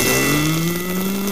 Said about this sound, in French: Oh non. Dis-moi pas qu'il y a du trafic, là. Dis-moi pas qu'il y a du trafic.